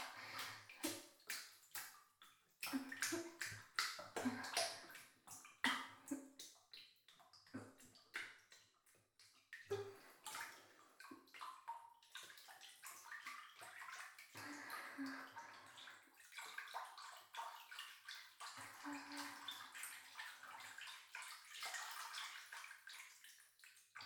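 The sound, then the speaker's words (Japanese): Bath water sloshes and splashes in a bathtub, with many irregular surges and slaps of water that rise and fall in loudness throughout. “お風呂のお湯がすっごい波打っちゃう”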